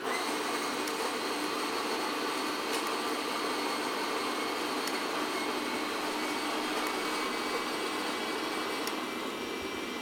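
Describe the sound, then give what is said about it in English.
A coffee grinder grinding about 30 to 40 grams of beans, a steady, dense, high mechanical whir that holds at an even level throughout without pause. “So I weigh it on the scale, weigh about 30 grams of coffee, maybe 40. You grind your beans.”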